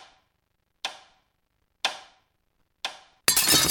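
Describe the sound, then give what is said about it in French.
A watch is smashed in a comedic bar-advert sound effect: sharp, clock-like knocks land about a second apart, then a sudden loud crash of breaking noise ends the sequence. “Non, non, pas casser la montre. Beat the clock.”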